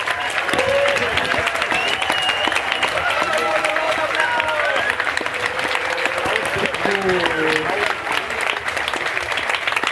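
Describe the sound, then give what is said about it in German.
Audience applause for participants who came up on stage at an event, dense continuous clapping lasting the full length, with crowd voices and whoops rising and falling above it. “Nochmal einen großen Applaus für alle, die sich getraut haben.”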